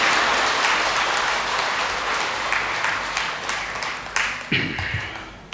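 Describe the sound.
Applause from an audience at a Buddhist dharma talk, a dense, steady patter of many hands that slowly thins out and ends with a few louder, isolated claps.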